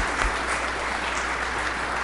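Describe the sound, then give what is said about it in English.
Applause from a church audience during a Sunday service, thanking an organist: a continuous, even wash of many hands clapping, fairly loud and unbroken from start to end. “will take those claps home and make sure she gets them.”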